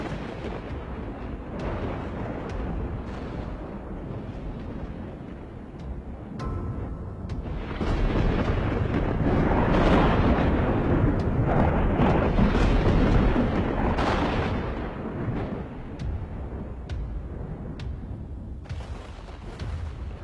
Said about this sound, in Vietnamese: Vừa dứt câu thì từ trên trời một tia sét giáng xuống.